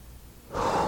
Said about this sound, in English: I forgot to breathe.